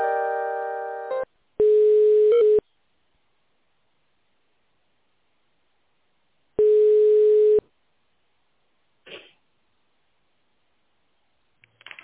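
Telephone line tones while a call is being transferred: a short buzzing tone at the start, then two steady tones of about one second each, several seconds apart, followed by faint clicks.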